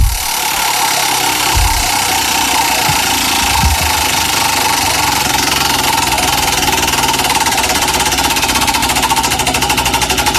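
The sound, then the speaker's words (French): A small card flapping against the spokes of a turning bicycle wheel makes a loud, steady, buzzing rattle, like a motorbike engine idling, that runs without a break from start to end with no talk. “C'est vraiment le bruit, tu sais, du petit truc qu'on mettait sur les roues de vélo. Qui a fait ça aussi. Pour avoir l'impression d'avoir une moto.”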